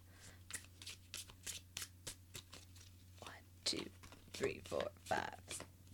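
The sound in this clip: A tarot deck is shuffled to draw a card of the day: many soft, rapid riffles and flicks of cards in a steady rhythm, faint and close, growing a little busier toward the end.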